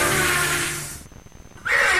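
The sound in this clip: A horse neighs in a loud, shrill whinny that trails off. After a brief lull a second loud whinny bursts in at the very end.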